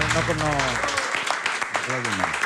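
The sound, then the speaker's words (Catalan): Audience applause with sharp claps rising in the second half, mixed under voices that sing or call out over them. “Un aplaudiment per ell.”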